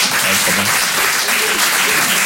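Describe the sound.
Audience applause from a crowd that includes parents: dense, steady clapping at an even, fairly loud level throughout.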